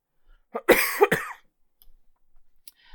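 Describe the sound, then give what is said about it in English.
Coughing from a person with a lingering cough: a short burst of two or three harsh, dry coughs close together, fairly loud, followed by quiet with faint small sounds. “I have this cough and I can't. Every so often it really hits me.”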